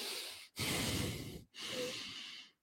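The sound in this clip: A voice imitates a man in church breathing heavily through his nostrils while praying, giving three long, soft, hissing breaths with short pauses between them.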